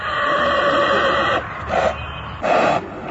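A white horse that pulls a tonga cart whinnies, a long, loud harmonic neigh followed by two brief, breathy bursts.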